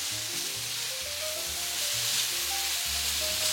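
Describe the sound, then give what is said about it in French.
Meat searing in a hot pan over high heat gives a steady, bright sizzling hiss that runs throughout, with a simple melody playing underneath. “On augmente le feu Pourquoi on augmente le feu Parce qu'on veut saisir cette viande.”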